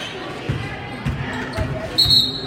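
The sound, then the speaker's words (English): A basketball is dribbled on a court during a junior team game. About four evenly spaced, dull low thumps sound over a steady wash of background noise. “Double dribble here for number 30”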